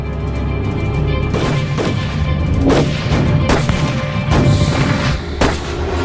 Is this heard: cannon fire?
yes

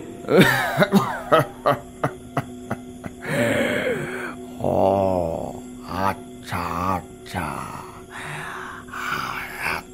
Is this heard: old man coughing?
yes

